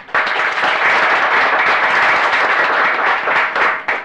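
Applause fills a legislative chamber as an audience welcomes a guest seated in the gallery: dense, steady clapping from many hands for about four seconds, thinning out just at the end.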